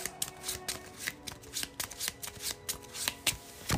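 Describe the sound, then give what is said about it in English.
Playing cards are handled and a random card is drawn from a hand during a cooperative card game: many quick, crisp flicks and slides of card stock in an uneven rhythm, with no voices. “So we're just going to pitch a card from my hand.”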